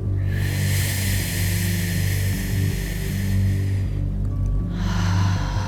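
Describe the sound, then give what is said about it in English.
Breath drawn in through pursed lips makes a long, airy, wind-like hiss. A second inhale begins near the end, over a steady low hum. “imagining that you're breathing in through a straw. Your lips then gently purse around that straw on your inhale, and you then hear the sound of the wind.”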